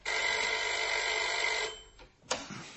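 A telephone rings in a detective drama before Commissioner Maigret answers, its bell giving one steady, sustained trill for under two seconds, then stopping, followed by two sharp clicks.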